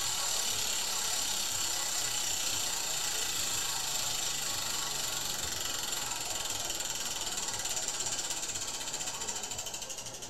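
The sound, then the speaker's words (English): A prize wheel spun hard gives off a rapid, continuous stream of ratcheting clicks as its pointer flicks over the pegs. The sound stays loud and even throughout, easing slightly only at the very end. “How long are you going to spin the wheel for? Come on. I thought it stopped already. That's the longest wheel I've ever heard in my life.”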